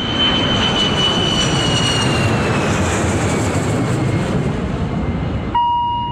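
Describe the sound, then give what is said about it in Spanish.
Jet roar of a Boeing airliner taking off: a dense, loud, steady rumble with a high whine that slowly falls in pitch. It cuts off abruptly near the end, and a short steady tone follows. “Vamos a despegar con el Boeing 630 del S5 Radio Rivadavia.”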